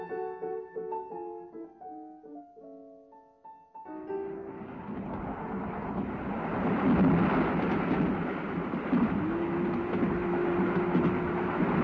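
A passenger train with compartments moves along the rails and takes a curve, following a short passage of melodic tones. A dense, continuous rumble and rattle then swells and holds steady, with faint clickety-clack in the noise.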